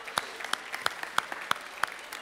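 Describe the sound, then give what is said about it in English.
Audience applause, heard as faint, evenly spaced claps in a steady rhythm with softer claps between the stronger ones. “Oh, give her a round of applause.”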